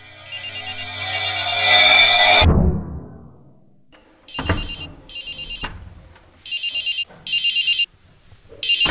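A mobile phone ringtone sounds in short, high-pitched electronic bursts that come in pairs with brief pauses between them, following a louder, sustained sound that cuts off abruptly.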